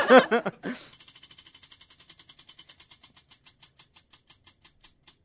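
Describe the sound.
A spinning wheel clicks rapidly after a brief vocal sound at the start, its sharp ticks steadily spacing out as the wheel slows, ending in many widely separated clicks.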